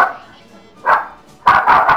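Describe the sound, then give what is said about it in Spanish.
A small pinscher dog barks a few short, sharp times: one bark, a pause, then a quick burst of yips, loud and alone. “¡Que se acerca un perro gigante!”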